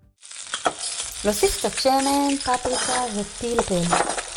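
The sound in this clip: Sizzling of food frying in oil with paprika and pepper on a gas stove, with stirring and a few light metallic clinks through the steady crackle.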